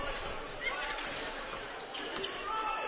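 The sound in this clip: Basketball dribbled on the court late in a college game, its bounces masked by steady, loud crowd noise throughout.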